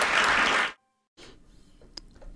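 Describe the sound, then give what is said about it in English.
Brief loud burst of applause that cuts off abruptly, followed by near silence and then a quieter, low background murmur. “she gets some applause for that announcement.”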